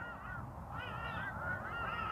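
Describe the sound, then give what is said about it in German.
Birds calling in the background, with nasal, honking calls that repeat steadily through the short stretch. No voices are heard. “Du hörst die Vögel im Hintergrund, stimmen mir zu bei dem, was ich sage, sehe es als positives Zeichen.”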